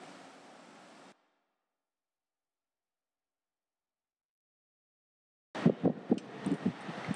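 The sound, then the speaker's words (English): Wind blows across the microphone during an outdoor interview, a steady rush that cuts off abruptly, leaving a long silence before choppier, louder gusts return. “I apologize in advance because we did do this interview outside and it is a little bit windy, but just know that the periods of wind do go away”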